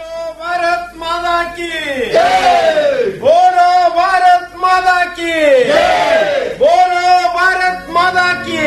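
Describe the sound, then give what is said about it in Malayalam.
A crowd of protesters roars in a freedom struggle in a radio drama: many voices shout and chant loudly together in surging waves that rise and dip over several seconds. “വലിച്ചു പൊട്ടിക്കാൻ വെമ്പൽ കൊള്ളുന്ന ആയിരങ്ങളെ പതിനായിരങ്ങളെ ലക്ഷോപലക്ഷം ജനങ്ങളെ അച്ഛൻ അവരുടെ ആരവം കേൾക്കാത്തത് എന്താണ് ആ സമരാവേശം കാണാത്തത് എന്താണ്”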